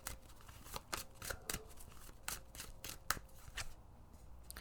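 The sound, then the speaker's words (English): Tarot cards being shuffled and a card pulled: many crisp papery snaps and rustles in an uneven rhythm, fairly faint, with no talking. “But let's go ahead and pull a card.”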